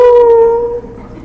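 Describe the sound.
A human voice imitates a wolf howl with one sustained, wavering, mid-pitched tone that is loud at first and then fades out.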